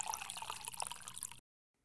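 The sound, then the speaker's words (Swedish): Orange juice pours into a glass in a faint, steady liquid trickle with small splashy spatters. It runs for more than a second, then stops abruptly into silence. “Han tar glaset och går till kylskåpet och häller upp lite apelsinjuice.”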